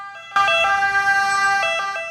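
An ambulance siren starts abruptly after a brief quieter lead-in, then holds a loud, bright, sustained wailing tone with a few short wavers. No voices are heard over it.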